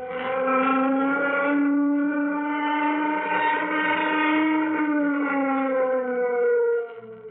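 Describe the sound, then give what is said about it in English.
A warning siren sounds before a craft's takeoff: a steady, harmonic-rich wail that drifts slightly in pitch, holds for about seven seconds and then cuts off abruptly. “Sound warning signal. Sound warning signal.”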